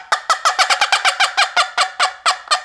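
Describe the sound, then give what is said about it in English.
A turkey hen's fly-down cackle is imitated by a hunter calling in early-morning turkeys: a loud, rapid, irregular run of many sharp, raspy clucks, heard alone without talk. “And then when you do the fly down cackle,”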